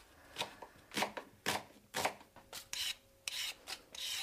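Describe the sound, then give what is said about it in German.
A knife chops onions on a board for a large batch of cooking, giving a steady run of many crisp, scraping cuts at a fairly even rhythm, each cut loud and brief, with no talk. “Aber ich muss noch ein paar Zwiebeln schneiden”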